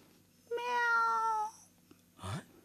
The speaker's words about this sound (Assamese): মেও মানে অঁ, মাছ চুৰ কৰি খোৱা কলি মেকুৰীজনী।